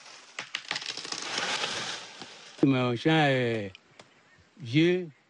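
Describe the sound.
Crackling and crushing of wood as old, unproductive cocoa trees are cut down on a 3.5-hectare cocoa farm near Azigie, a rough rustling noise with sharp snaps for over two seconds, followed by voices speaking.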